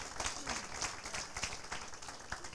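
Church audience applauding the Lord during a worship service: faint, dense, rapid hand clapping from many people, continuous throughout with uneven bursts.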